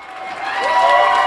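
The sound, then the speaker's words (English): A crowd cheers and yells in a university campus bar in downtown Montreal, celebrating on election night. A dense, continuous roar of many voices swells steadily louder. “That's the sound of celebration in the campus bar at Concordia University in downtown Montreal.”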